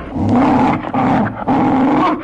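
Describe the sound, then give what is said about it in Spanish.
An agitated dog growls and snarls in loud, rough, sustained bursts, three long stretches broken by brief dips. “el perro del repartidor, que había estado olfateando al posadero, en cuanto vio al hombre, se agitó nervioso. ¿Qué diablos le pasa a tu perro?”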